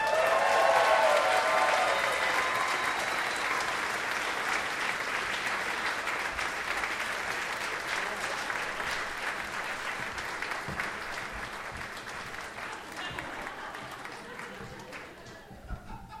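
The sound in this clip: A crowd applauds as two comedians are welcomed onto the stage. The clapping is dense and sustained and slowly tapers in loudness over a long stretch, with faint voices mixed in.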